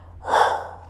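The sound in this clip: A person imitates a gray whale exhaling with a single hollow, breathy rush of air that swells and fades within about a second.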